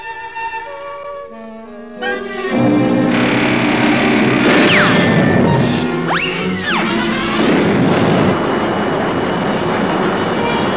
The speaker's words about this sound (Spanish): Oigan, miren amigos, parezco un Jet 707.